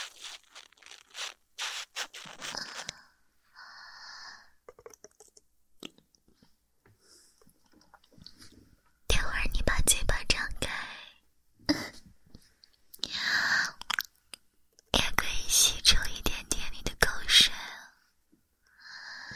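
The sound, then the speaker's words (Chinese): Water beads are squeezed inside a sponge, making wet, crunchy squishing bursts in two louder stretches, with soft whispered talk around them. “你听，这是我的吸水珠吸在海绵里的声音。”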